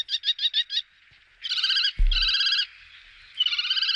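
Calls of a kestrel, a bird of prey: a quick series of five sharp, high chirps, then longer buzzy, rapidly trilled bursts of high calling, with a single low thump midway.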